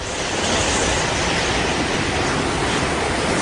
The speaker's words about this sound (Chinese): 台风要来了哦，风有点大哦。